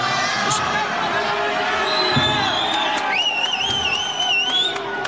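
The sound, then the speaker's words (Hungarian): Applause for the head of a mothers' environmental association: scattered claps over crowd noise and voices, with a sustained whistle-like tone wavering through the second half. “Nagy tapsot kapott a Mikepércsi Anyák a Környezetért Egyesület vezetője Kozma Éva.”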